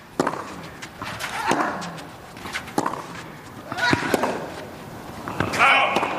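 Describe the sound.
Tennis ball strikes in a professional match rally, including a Sinner backhand, land as sharp, crisp pops at a steady rhythm about every second, alternating evenly over a continuous noisy background.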